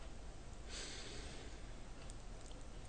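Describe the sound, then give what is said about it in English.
A deep breath drawn in during a guided relaxation exercise, heard as a soft, airy rush of inhaled air that is faint and steady, with no other sound over it. “And as we take a deep breath in one,”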